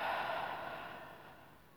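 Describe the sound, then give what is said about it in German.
A long, deep breath out during a guided yoga relaxation, a soft airy whoosh that is strongest at the start and gradually fades away. “Noch einmal tief einatmen und tief ausatmen.”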